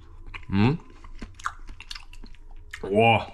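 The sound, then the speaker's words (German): Chewing on a bite of an egg dish, with soft, faint wet clicks and crunches between two brief voiced hums of appreciation. “Aha, dann probiere ich mal, wie es schmeckt. So, nehmen wir mal die Hälfte hier.”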